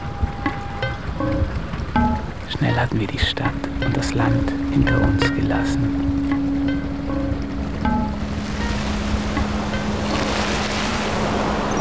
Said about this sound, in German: Da löste sich die Kette von selbst und das Boot fuhr los.